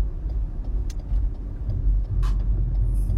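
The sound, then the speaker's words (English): A car drives along with a steady, low engine and road rumble that holds throughout. A few brief, faint higher noises pass over it, and no one speaks. “This is probably going to be it for a bit, driving.”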